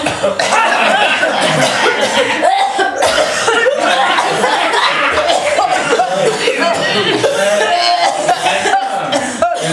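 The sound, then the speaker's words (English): An audience member coughs on request at a live performance: repeated coughs mixed with chuckles and laughter from the crowd, loud and continuous throughout, with voices heard among them. “Can somebody cough, please.”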